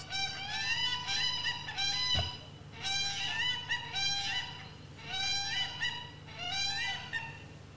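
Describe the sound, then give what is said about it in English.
A whooping crane calling in loud, honking, bugle-like bursts, four bouts of repeated harmonic notes separated by short pauses, with a brief click between the first two. “That's a whooping crane, one of many noises it makes.”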